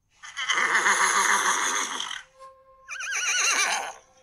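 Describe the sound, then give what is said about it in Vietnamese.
A black horse gives long, loud neighs: a drawn-out, wavering whinny of about two seconds, a short pause, then a second shaking whinny of similar strength. “Con ngựa đen hí dài một tiếng, tiếng hí át hết thanh âm của mọi người.”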